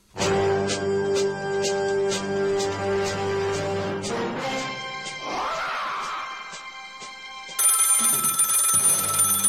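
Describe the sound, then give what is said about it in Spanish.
A telephone bell rings in a fast, regular series of bright pulses for about four seconds, followed by a different, denser tonal passage. “Ellos llaman, ellos hacen ring y Arcadi responde”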